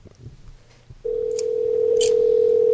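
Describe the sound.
A steady telephone dial tone, heard before a prank call to a theater, begins after a second of low background noise and holds unbroken at one pitch to the end.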